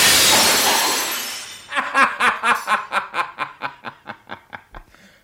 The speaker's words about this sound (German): Er traf aber den Kronleuchter, der mit ohrenbetäubendem Krach auf den Boden stürzte.